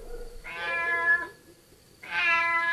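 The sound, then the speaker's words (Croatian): A cat meows twice, each call a clear, drawn-out, high and tonal mew, separated by a short quiet gap. “Mic, mic. Dođi, Mico, dođi. Mic, mic.”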